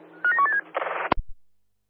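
Telephone dialing: a quick run of a few short keypad-like tones, then a broad burst of noise and a sharp click, with no talk over it.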